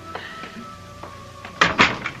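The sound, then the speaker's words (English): A door opening: a few faint taps, then a loud clattering clunk of the handle and latch, followed by a softer knock. “Let me get the door.”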